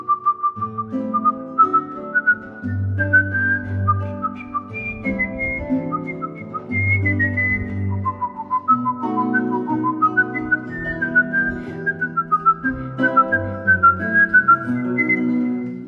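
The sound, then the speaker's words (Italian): A person whistling a melody in clear, bright, sustained notes that step and glide up and down. The whistling is loud and continuous for the whole stretch. “Fischio è, come dicevi tu all'inizio, lo strumento maleducato per eccellenza.”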